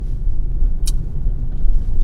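Steady low rumble of a car driving on a road, loud and continuous, with one brief high hiss partway through.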